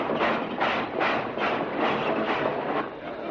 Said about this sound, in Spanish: descubre que este tren sale en dos películas del oeste, en un spaghetti western, que concretamente aparece en la película en dos películas, Bandidos y Killer Adiós.